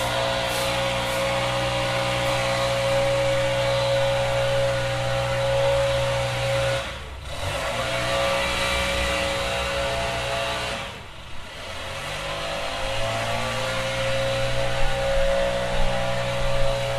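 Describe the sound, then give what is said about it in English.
A neighbor's leaf blower runs across the street, a continuous whining engine drone with a steady tone, dipping briefly twice before resuming at full strength. “Yes, across the street, and to be fair, full disclosure, there are people who come by and mow our lawn, and they use a leaf blower too. So it's not only this neighbor, I do it too.”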